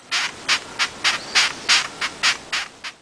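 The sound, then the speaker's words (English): Long-horned beetle stridulation: a steady, evenly spaced run of about ten dry, raspy squeaks, bright and scratchy, repeating without pause and heard alone. “That sound was... A long-horned beetle.”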